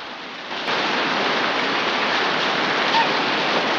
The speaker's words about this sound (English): swiftly followed by a ferocious downpour. The driving rain pelts the river.